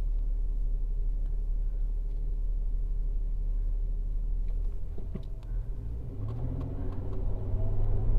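Steady low engine rumble fills the cabin of a car being driven, a deep constant drone with brief faint knocks near the middle and a slight swell in the low hum toward the end; no one speaks.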